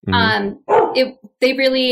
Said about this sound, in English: my dog just barked.